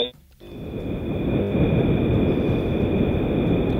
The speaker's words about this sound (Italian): C'è una sorta di aeroplano, di reattore, esatto. che si è acceso.